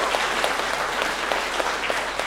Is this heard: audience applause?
yes